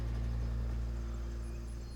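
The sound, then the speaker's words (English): Trabant car driving along with an ill-fitting spare wheel, heard as a constant low engine drone with a buzzing tonal hum and rumble that stays even throughout. “Back on the road, the Trabant rattles along with an ill-fitting spare wheel, past a small bridal party congregated in a graveyard.”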